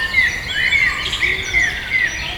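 Birdsong of about five short, high, whistled chirps repeats at a fairly even pace over a steady background hiss, with no voices.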